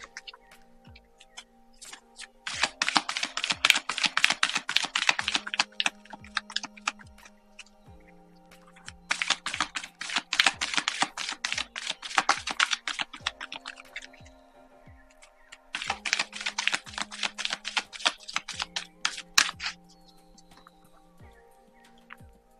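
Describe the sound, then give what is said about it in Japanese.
Spiritual message cards being drawn make dense bursts of rapid papery clicking. The bursts come in three long runs separated by pauses, over a quiet, steady background of soft tones and faint regular ticks. “今日のね、スピリチュアルメッセージ、カードを引いてきますので、少々お待ちください。”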